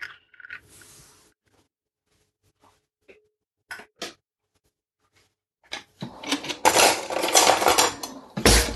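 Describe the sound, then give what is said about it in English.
Sharp knocks of an egg being cracked in a kitchen: a few brief, separated taps, followed by a louder, sustained burst of clattering that runs almost to the end. “So grab yourself an egg, crack it.”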